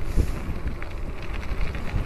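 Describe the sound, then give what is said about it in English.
Wind gusts into a microphone outdoors while snow is falling, making a continuous low, rumbling roar with small surges throughout and no talking. “Whoa, that's a lot of wind all of a sudden.”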